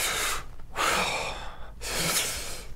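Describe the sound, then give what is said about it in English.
A man takes deep breaths in and out, with a thin whistling wheeze from lungs damaged by a past pneumonia. There are a few long, airy breaths separated by short pauses, fairly faint and with no talk. “I mean really deep breaths, and then really throw it out. You see how you heard a wheeze in me?”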